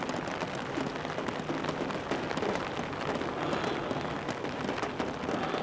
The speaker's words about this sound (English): It is raining.